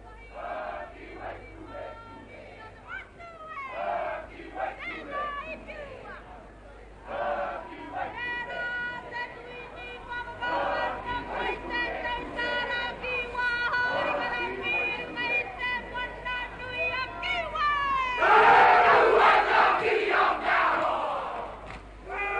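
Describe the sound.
Māori haka warriors chant and shout in rhythmic unison at a marae welcome for Queen Elizabeth II, with crowd noise around them, the chanting swelling louder toward the end.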